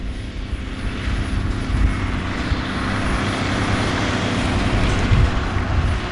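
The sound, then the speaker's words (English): A landfill compactor with spiked wheels works trash in a steady, loud engine drone with a broad rumbling roar that barely changes throughout. “the trash that does need to stay at the landfill, it meets the compactor.”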